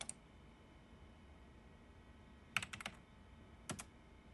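Someone types on a computer keyboard in two faint, brief flurries of quick key clicks, separated by a quiet pause.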